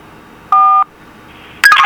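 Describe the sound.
Keypad tones from pressing telephone keys: one clean, short two-pitch beep, a pause, then a harsher, noisier burst of tones at the end.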